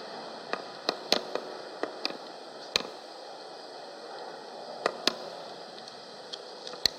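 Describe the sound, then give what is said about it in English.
Faint, steady breathy hiss as tinder holding an ember from fire compression is blown into a flame, with many scattered sharp crackles and tiny pops at irregular intervals. “We'll go ahead and put that into our tinder bottle. See if we can blow this into a flame.”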